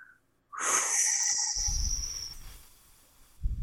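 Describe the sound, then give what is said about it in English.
A slow exhale through pursed lips, a long airy hiss with a thin whistling edge that starts suddenly and gradually fades, followed by faint low rumbles. “sometimes it just requires a slow exhale through pursed lips.”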